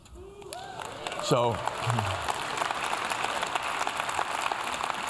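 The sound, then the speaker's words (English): Applause from a church audience during a sermon. Brief voices at the start give way to a steady, even patter of clapping that continues to the end. “And thank you for the applause”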